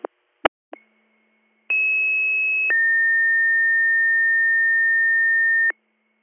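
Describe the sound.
Emergency dispatch alert tones sound over a radio: a few brief clicks, then a steady tone lasting about one second followed by a lower steady tone held for about three seconds before cutting off.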